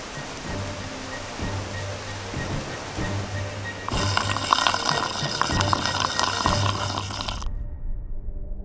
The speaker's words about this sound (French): il sortit son tuyau magique et fit jaillir un fort jet d'eau qui neutralisa Fireman